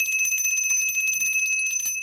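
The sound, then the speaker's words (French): A small hand bell rings rapidly and continuously, giving a bright, high, steady metallic jingle of quick repeated strikes throughout, with no voices. “Maudite clochette.”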